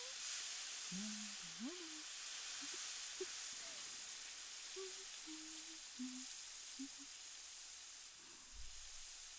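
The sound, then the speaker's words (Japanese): Oil sizzles on a hot iron teppan griddle, a continuous bright hiss that stays even from start to finish while a voice talks quietly underneath. “どうです？いい音だったでしょう。鉄板で何かを焼く音ってリラックス効果があるらしいんですよ。”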